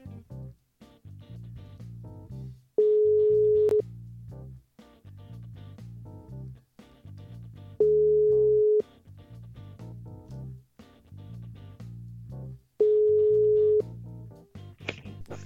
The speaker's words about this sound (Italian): vediamo si chiude e poi magari lo richiamiamo, vediamo che succede. Ecco qua che risquilla.